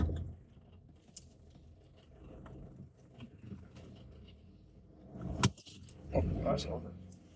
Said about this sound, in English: I'm just driving into my drive, and I'm going to pause it.